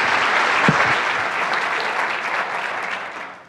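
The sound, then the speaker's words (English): Audience applause welcoming a speaker before a talk on cancer: dense, steady clapping that holds for a few seconds, then thins and tapers off at the end. “Please give a very warm welcome to Dr. Siddhartha Mukherjee.”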